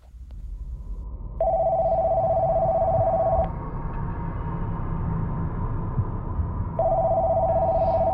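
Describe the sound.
Outgoing telephone ringback tone on a call to a condominium's management office: two long, steady, buzzing rings separated by a pause, over a constant low background hum.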